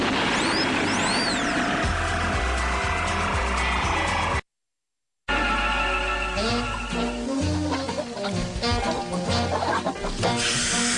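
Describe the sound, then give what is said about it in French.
Dense clucking and squawking of hens in a large poultry farm holding over fifteen thousand laying hens, loud and continuous, with a brief silent gap near the middle. “donc vous avez sur votre droite plus de 15 000 poules qui chaque jour pondent entre 20 et 30 000 œufs.”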